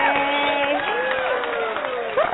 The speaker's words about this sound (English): So rounds of applause for T. Austin. Yay!